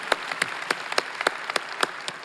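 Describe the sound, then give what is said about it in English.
Applause from a church audience, a steady run of sharp, bright claps coming at fairly even intervals, loud and without talk. “We put our hands together.”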